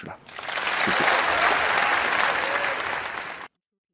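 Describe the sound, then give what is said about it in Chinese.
Audience applause at the end of a talk on microbes, loud, dense clapping that swells quickly, holds steady and then cuts off abruptly. “这一段是听完了啊啊，最后的掌声也有了。”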